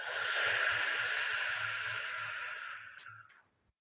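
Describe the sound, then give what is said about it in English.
A slow, deep breath: a long, airy, breathy rush holds steady, then gradually fades away to silence, with faint low pulsing underneath. “Let's do that two more times. Deep breath in and out.”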